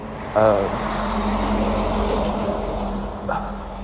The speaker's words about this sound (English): Sorry, I had to let the daily semi drive by.